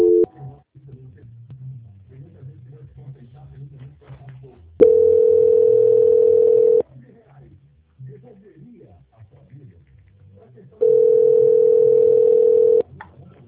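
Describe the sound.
Telephone call transfer tones: two long, steady, identical tones of about two seconds each. Stretches of muffled voices and line noise come before, between and after them.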